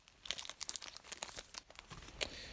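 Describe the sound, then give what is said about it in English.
Plastic packaging crinkles and tears as a remote control is unwrapped, with many quick, quiet rustles and crackles in an irregular rhythm. “So now I'm going to unwrap this remote.”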